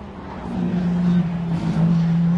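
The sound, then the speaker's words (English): Audi petrol-engined race cars sweep past in a 2008 race, giving a steady, loud engine drone with a low hum that swells and eases a little as they go by. “How quiet those Peugeots are. You get that sort of spaceship kind of. And there they go, the Audis.”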